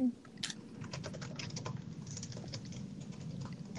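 Typing on a computer keyboard while someone writes. Many quick, light key clicks fall in an irregular patter, quiet and steady throughout, with no voices.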